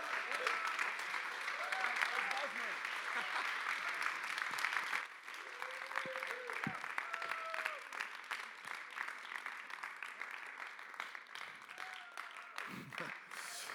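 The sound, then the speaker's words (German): An audience at the K21 church applauds to welcome a pastor. The clapping is dense and steady, eases slightly after about five seconds and carries on, with voices sounding over it. “Danke für euren Support und für euren Applaus.”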